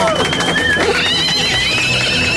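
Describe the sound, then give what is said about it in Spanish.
A horse neighs, a high, wavering whinny that rises and trembles over a steady, dense background, with talking underneath. “¿Y el caballito?”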